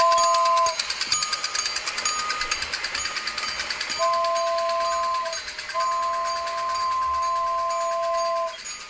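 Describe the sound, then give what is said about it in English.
A kid's miniature toy train runs with a fast, steady mechanical rattle while a two-note whistle sounds three times, the later blasts held longer. “It's a miniature version. Yeah, it's a toy train. A kid's toy train.”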